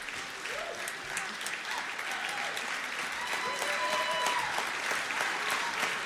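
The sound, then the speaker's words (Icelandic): Audience applause: steady, dense clapping that runs unbroken throughout, moderately faint, with no talk over it. “gefum þeim gott klapp”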